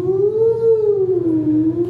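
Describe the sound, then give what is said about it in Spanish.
A siren-like synthesizer tone: an LFO modulates the oscillators so the pitch wavers smoothly up and down. A loud, sustained, harmonic-rich tone rises and falls slowly, with no voices. “Si le aplicamos el LFO a los osciladores, lo que hacemos es un sonido como de sirena”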